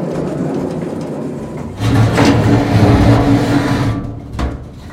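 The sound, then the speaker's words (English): An old, outdated elevator's doors close with a low rumbling slide lasting about two seconds, then a soft thump as they shut. “Anyways, the elevator's closing. You might want to step back a little bit.”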